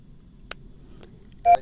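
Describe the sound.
Telephone line tones as a listener's call connects to a radio phone-in show: a faint click, then a brief, clear beep near the end, over a soft low hum.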